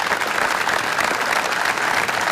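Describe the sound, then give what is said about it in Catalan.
Long applause from a crowd outside a town hall breaking a minute of silence at a mourning gathering, a loud, dense, unbroken clatter of many hands. “s'ha dut a terme un minut de silenci marcat per l'emoció i el dolor i trencat per un llarg aplaudiment.”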